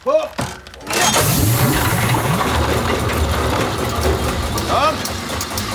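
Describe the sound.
A reindeer sled simulator starts up with a steady, low rumbling hum that sets in after a brief voice and continues evenly to the end.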